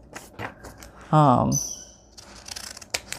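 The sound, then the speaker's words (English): Scallop-edged scissors cut through paper to trim the sides of a paper pocket, giving several crisp, quick snips, with a brief voice in the middle. “I'm going to have to cut the sides to make it thinner because it's the same width. So we want it thinner. I'll just cut a bunch off with this little scallop scissor, which is so much fun.”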